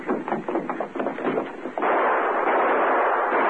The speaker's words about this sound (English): Who are you shooting at?